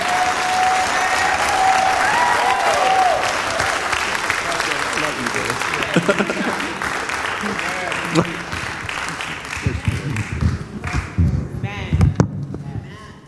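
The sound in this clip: An audience applauds to welcome a pastor. Dense, sustained clapping thins later into scattered, louder individual claps toward the end.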